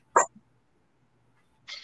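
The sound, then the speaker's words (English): One short, sharp sneeze bursts out of near silence, followed by a faint catch and a quiet pause. Another brief burst of sound comes at the very end. “Bless you, though. He's sneezing, dude. He's sneezing.”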